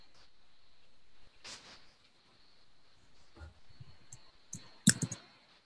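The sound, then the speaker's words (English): Faint keyboard typing as a search term is entered, heard as scattered soft clicks and small clusters of keystrokes, with one sharper click near the end. “I just type in something around blockchain or crypto or Bitcoin. So if we try blockchain.”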